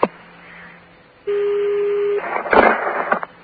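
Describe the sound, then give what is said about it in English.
A telephone ringback tone on a call to Saudi Arabia: one steady mid-pitched tone lasting about a second over a faint low line hum, followed by a short burst of noisier line sound. “Yeah, this is going to be a ring in Saudi Arabia. I hope it rings.”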